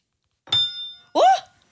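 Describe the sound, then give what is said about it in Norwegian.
A spoon struck once against a table gives a single bright metallic clink with a short ringing tone, followed by a voice exclaiming in surprise. “Og så klunker dere til i bordet. Hva sa du? Og så klinker du skjea. Ja, klinker jeg nå.”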